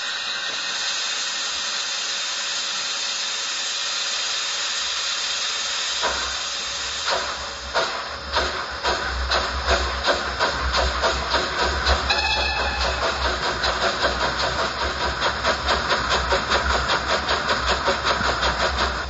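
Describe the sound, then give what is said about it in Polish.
A steam locomotive with its cylinder drain cocks open gives a loud, continuous hiss of escaping steam. Once it gets moving, the hiss gives way to rhythmic chuffing that settles into many rapid, even beats. “Otwarte kurki stocylindrowe. Zaraz ruszymy. I najważniejsze, czyli dźwięk jadącego parowozu.”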